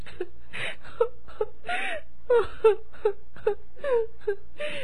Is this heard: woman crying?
yes